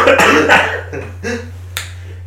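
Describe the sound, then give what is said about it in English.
Finger snaps given in approval: about five sharp, dry snaps at uneven intervals, the last one crisp and isolated, over a steady low hum. “Snaps.”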